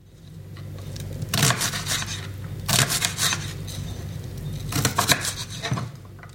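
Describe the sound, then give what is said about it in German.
Knife chopping onions and other vegetables, with a few bursts of quick, rapid cuts separated by quieter pauses. The cuts sound moderately loud, and nobody speaks. “Jemand schneidet Gemüse. Ich glaube, er schneidet Zwiebeln.”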